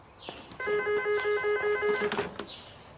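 A telephone rings unanswered, one steady, buzzing ring of about a second and a half, with a few faint clicks before and after it.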